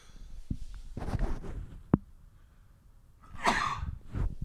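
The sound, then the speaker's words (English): Sneeze from a person on the verge of a sneezing fit: a sharp, noisy burst among other breathy, rustling sounds, with no talk. “I may be on the verge of a sneezing fit. I just sneezed again.”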